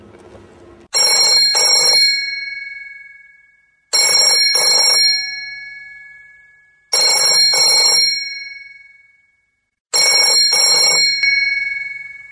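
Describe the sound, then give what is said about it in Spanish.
A telephone rings with an incoming call: four evenly spaced rings, each a bright double burst of bell-like tone that lingers and fades before the next, loud and with no voices. “En la madrugada, Ruda recibe una extraña llamada.”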